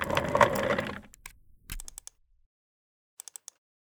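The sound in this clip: Keystrokes on a work laptop keyboard as a password is typed: a brief noisy opening, then a few scattered clicks, then four quick, evenly spaced taps close together near the end.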